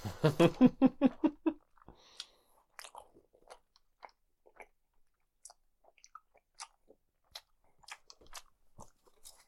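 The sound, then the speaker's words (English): Close-miked chewing of weird gummy snacks with sauce: after a brief voiced burst at the start, irregular wet clicks, smacks and soft crunches follow, faint and scattered, with a few denser clusters. “Keep chewing into the mic. I'm trying.”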